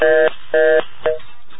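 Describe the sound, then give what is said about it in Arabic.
Telephone tones on a radio call-in line: three loud electronic beeps. The first two are longer and the last is short, each separated by brief gaps. “الو معنا اتصال. الو الو حدا عم يتصل فينا ويسكر.”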